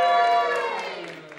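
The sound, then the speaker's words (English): A short cheer from an audience for a perfect slice of bread in a contest: voices rise in a bright, sung-out cry that slides downward in pitch and fades within about a second. “Okay, can I just have a little kind of cheer for Toby's perfect slice of bread? And a cheer for Eddie's perfect slice of bread.”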